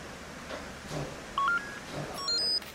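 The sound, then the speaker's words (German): Telephone keypad tones sound as a number is dialled, a few short, clean electronic beeps at slightly different pitches, faint against quiet background noise. “Ich werde Frau Müller anrufen.”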